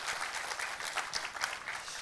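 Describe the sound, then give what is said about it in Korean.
Church audience applauding in encouragement of small-group leaders at an early-morning prayer service, a dense, steady wash of many hands clapping that lasts the whole clip with no voices over it. “한번 순장님들 한번 우리 격려의 박수 부탁합니다.”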